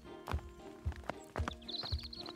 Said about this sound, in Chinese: 从前有三个人一起走在路上，遇到一位骑士骑着马朝着他们走过来。